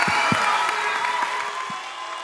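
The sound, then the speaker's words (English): A church audience claps to welcome a youth director to the front: dense, steady applause with a few heavier thuds early on, easing slightly toward the end. “Would you put your hands together and welcome Allie from our Point Loma campus?”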